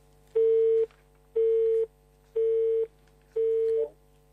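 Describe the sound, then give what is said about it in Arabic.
Busy tone after a phone call is cut off: four evenly spaced, steady beeps of one mid-pitched tone, each about half a second long with equal silent gaps between them. “يبدو فصل للخط. يبدو أنه فصل الخط، راح نحاول مرة تانية ونشوف.”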